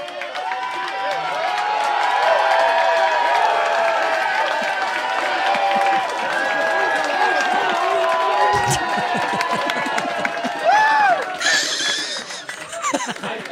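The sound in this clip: An audience cheers and applauds in a standing ovation, with loud, sustained clapping mixed with whoops, shouts and some laughter that continue through the whole stretch without pause.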